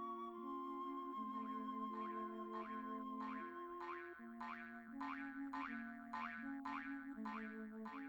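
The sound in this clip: Cartoon boings of a pink rabbit carrying a basket of eggs, bounding around a dark forest. Many springy, rising twangs repeat in a steady rhythm over sustained musical tones.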